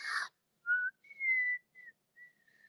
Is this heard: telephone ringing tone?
no